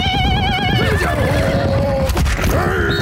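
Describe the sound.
A horse whinnies loudly, a long quavering call that wavers and slides downward in pitch, followed near the end by a shorter second call over a dense low rumble.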